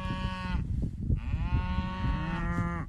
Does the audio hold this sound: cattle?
yes